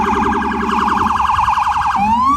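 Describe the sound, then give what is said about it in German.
New York police and ambulance sirens blare in a fast, loud, warbling yelp. Near the end the pattern switches to a smooth rising wail, with no voices present. “Die Sirenen der Polizei und Rettungsfahrzeuge erträgt nur, wer sich die Ohren zuhält.”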